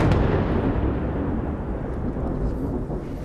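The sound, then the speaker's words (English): An Israeli airstrike explodes over Nabatieh, Lebanon, a deep rolling boom that is loudest at the start and then rumbles on, slowly fading over about three seconds. “We've been here for about 10 minutes and there's been a wave of very intense Israeli airstrikes. We've just heard another one and we can see the plumes of smoke rising”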